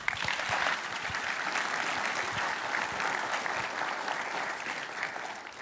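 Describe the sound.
Audience applause welcoming a speaker, an even, sustained clapping from the crowd that runs at a steady level through the whole clip.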